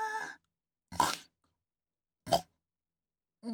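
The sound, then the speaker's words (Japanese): A woman snorts through her nose like a pig, giving short, sharp nasal snorts separated by silence, with a brief voiced sound at the start. “あ、ごめん、興奮した ら豚みたいに鼻鳴らしちゃった。”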